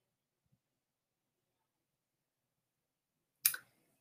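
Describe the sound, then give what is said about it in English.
A single sharp mouse click on the search button of an Amazon keyword research tool, brief and crisp, standing alone after a stretch of near silence. “And we're going to click search and see what we come up with.”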